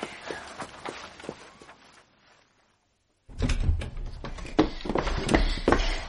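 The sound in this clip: Running footsteps in quick, irregular thuds, first faint and fading out, then after a short silence returning louder and busier until the end.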